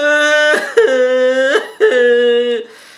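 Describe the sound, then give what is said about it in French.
Voices imitate crying on cue with three drawn-out, loud wailing cries held at a fairly steady pitch, each separated by a short break. “Est-ce qu'on peut pleurer maintenant? S'il vous plaît, on va pleurer. 1, 2, 3.”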